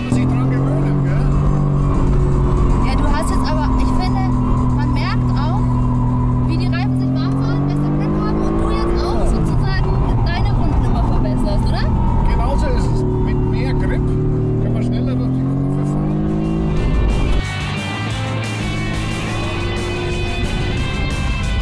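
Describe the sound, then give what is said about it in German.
A 585 hp race-taxi car, capable of 0 to 100 km/h in 3.6 seconds, accelerates hard on a race track. Its loud, continuous engine note climbs again and again through gear changes under ongoing talk. “Das Ringtaxi The Beast 585 PS und ebenfalls von 0 auf 100 in 3,6 Sekunden. Und ab geht's ins Yokohama S und dann in die Mercedes Arena.”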